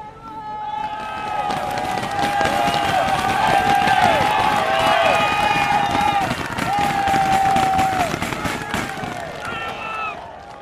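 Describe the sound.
A roadside crowd cheers riders on a cycling race climb, a dense wall of shouting, whooping voices and sustained calls. It stays loud and continuous throughout with little let-up.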